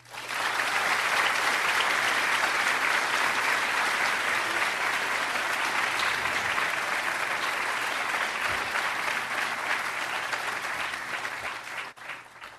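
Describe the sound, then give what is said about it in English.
An audience at the London School of Economics applauds to welcome a speaker, with loud, dense, sustained clapping that begins abruptly, holds for over ten seconds, and thins out at the end. “can you please join me in giving a warm welcome back to the London School of Economics for Frederick Reinfeldt.”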